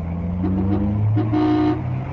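A car horn honks in a few short, steady-pitched blasts over a low vehicle rumble, loud and alone without speech.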